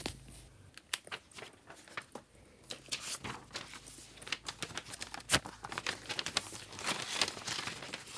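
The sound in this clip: Paper and envelopes rustle as they are handed out along with pens to a reading jury, giving many soft, irregular crinkles and light taps, quiet throughout.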